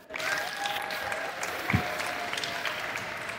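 An audience applauds to welcome the chief scientist of the Planetary Society, a steady wash of clapping that stays even for a few seconds and swells slightly at one point.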